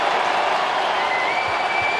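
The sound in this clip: Appreciative applause fills the SAP Center in San Jose as the crowd honors Alex Ovechkin's 887th career goal, which puts Washington ahead 5-1: a dense, even wash of many hands clapping that holds steady throughout.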